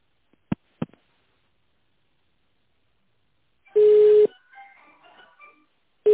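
A telephone call being put through to another line: two sharp clicks open the sequence, then a loud, steady electronic tone burst follows, faint warbling tones trail after it, and a second tone starts at the very end.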